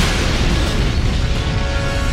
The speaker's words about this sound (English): They felt the planet rock beneath their feet as Poe fired on the weakened cooling device, destroying it once and for all.